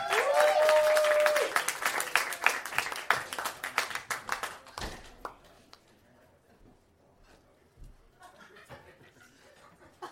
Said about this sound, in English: Ladies and gentlemen, please get some thunderous applause going for Joshua Lampley